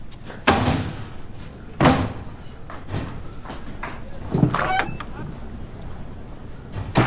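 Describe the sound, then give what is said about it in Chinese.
Door slamming shut and being locked: a few sharp thuds and clunks spaced over several seconds, with a lower rustle and handling noise between them. “锁门去了。”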